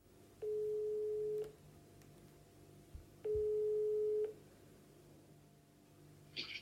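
Ringback tone of an outgoing telephone call: two long, steady, mid-pitched tones about a second each, separated by a pause, over faint line hiss, with a short burst of noise at the very end.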